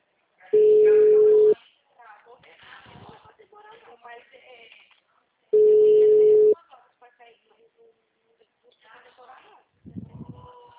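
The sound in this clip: Telephone ringing on a call: two long, steady single-pitch tones a few seconds apart, with voices talking in the gaps between and after them.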